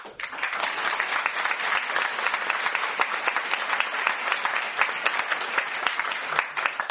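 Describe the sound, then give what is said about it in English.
An audience applauds amateur theatre actors with a thick, sustained burst of clapping, many individual claps blending into a steady patter that stays level for several seconds. “ils ont fait un travail formidable, nous pouvons encore les applaudir.”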